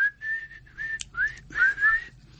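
A person whistling alone: a short run of wavering, sliding notes broken by brief pauses, moderately loud.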